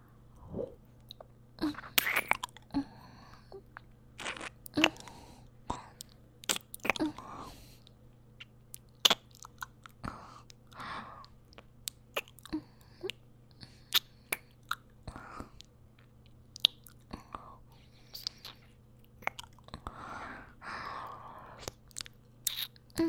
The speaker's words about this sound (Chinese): 那我干脆把它吃进去，尝一尝好了。